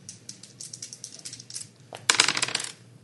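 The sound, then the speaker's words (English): Dice are rolled during a tabletop game, with many light, rapid clicks and rattles, then a louder burst of clattering near the end. “How many fire dice are you rolling?”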